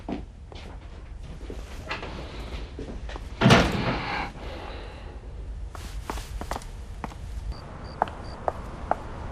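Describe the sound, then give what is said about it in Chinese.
A door is pulled shut, landing as one dull, fairly loud thud with a short rattling tail near the middle. Faint footsteps and light clicks come before and after it. “过来，把门关上。”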